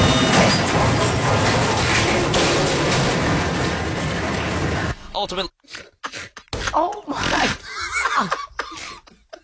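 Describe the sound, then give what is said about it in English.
A crane boom collapses onto a house: a loud, dense roar and crash fill the first five seconds without a break. After it come quieter, broken sounds and people talking. “The boom from that crane, another crane brought in. Our cameras rolling when it too failed.”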